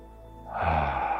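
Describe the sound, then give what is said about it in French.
A deep breath in: soft, breathy airflow swells out of near silence halfway through and holds steady for under a second, heard alone. “Et j'inspire.”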